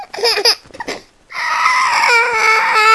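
Fussy baby crying: choppy, broken whimpering bursts give way to a steady, loud, high wail that holds to the end.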